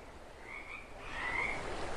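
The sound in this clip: A small frog croaking, with a couple of short, high, rasping croaks rising above a steady background hiss.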